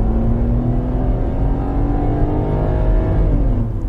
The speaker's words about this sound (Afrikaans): Ford nou ook sy goedkoopste EcoSport, die 1.5 Ambient, die opsie van 'n 6-spoed outomaties gegee en dis die een wat ek gery het.